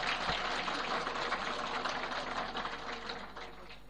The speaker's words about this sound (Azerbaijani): Məclisdə axsəkkəllərin sağlığına bir dənə əl çalıb mən başlayayım.